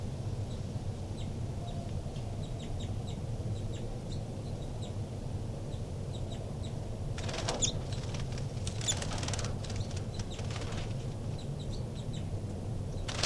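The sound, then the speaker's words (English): Baby birds climbing a screen near their nest give faint, thin, high chirps repeated throughout, with a few bursts of fluttering and rustling in the middle over a steady low hum. “Recording that disturbed the birds quite a bit, and the two new babies pop out of the nest and they're climbing the screen now.”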